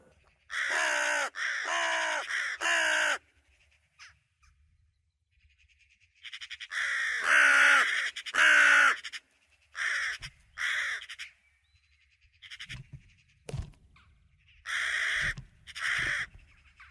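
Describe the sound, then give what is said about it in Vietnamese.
Harsh, raspy cries of a large bird in a deep forest at night come in several separate bursts of repeated calls, loud and grating, with short silences between them and no voices. “Trong rừng sâu, một con chim lớn không rõ tên đang kêu rên đến rợn người.”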